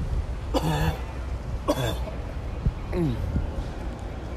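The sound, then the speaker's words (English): Coughing after something went down the wrong pipe: a few harsh, voiced coughs with throat clearing, spaced out over a steady low background hum. “Excuse me. Oh, something went down the wrong pipe.”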